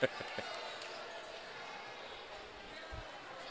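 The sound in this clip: A basketball is dribbled on the court during a girls' game, giving a few soft, low thumps, mostly near the start and one more near the end, faint beneath quiet talk and a hushed background.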